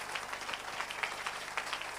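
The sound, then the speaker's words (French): An audience applauds and acclaims God during a worship service, with a faint, steady patter of clapping and a few slightly stronger bursts throughout. “Veuillez vous tenir debout. Et nous allons maintenant, de partout là où nous sommes, acclamer très très fort le Seigneur notre Dieu.”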